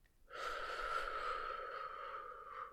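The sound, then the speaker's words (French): A deep breath during a guided breathing exercise: one long, airy breath that starts abruptly and holds at a steady, soft level before easing off near the end, with no talk. “Alors inspire encore une fois et souffle.”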